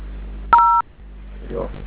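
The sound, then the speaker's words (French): A single telephone keypad tone, a steady two-pitch beep of about a third of a second, heard over a phone line while dialing a code, followed by a faint voice. “Là, vous essayez de composer le code.”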